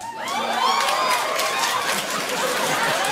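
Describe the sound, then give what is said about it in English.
A studio audience screeching and hollering, with high whoops and cheers riding on a dense, steady crowd roar that holds loud through the whole stretch. “That's your audience. You say white people went out and they start screeching and hollering about it as if it's good.”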